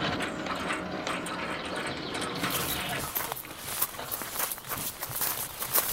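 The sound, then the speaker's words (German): A gate to a grand house opens with a continuous mechanical ratcheting and grinding whir, textured and unbroken throughout, with a few sharper knocks later on. “Ah, das Tor geht auf.”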